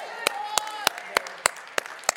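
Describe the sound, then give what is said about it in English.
Clapping from a church audience: seven sharp claps at a steady, even beat, fairly quiet, with a faint voice or tone continuing underneath. “That's a good time to clap.”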